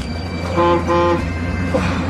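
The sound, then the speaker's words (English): A local bus on a village street sounds two short, tonal horn toots over steady, rumbling engine and road noise. “I certainly wasn't expecting the local bus to be running. Looks like it's heading for the far end of the street.”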